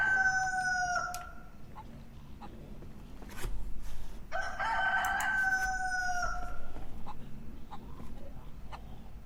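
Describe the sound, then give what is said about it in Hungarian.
A rooster very close by crows twice, each a loud, drawn-out cock-a-doodle-doo, over a steady background hum. “És itt van valahol eszméletlenül közel egy kakas is egyébként.”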